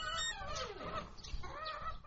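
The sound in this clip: Hens cluck and call while waiting to be fed grain, with repeated warbling, slightly rising clucks running throughout, fairly faint and with no voices.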